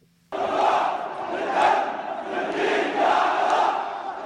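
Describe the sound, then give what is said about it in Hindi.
Shia protesters in Iraq, angry over unmet promises of political reform, chant slogans together; the loud, rhythmic mass of voices starts abruptly after a brief silence and surges in repeated waves. “ये नारे Iraq के शिया प्रदर्शनकारियों के हैं, जो राजनीतिक सुधारों के प्रधानमंत्री हैदर अल अब्दी के वायदे पूरे न होने से नाराज हैं।”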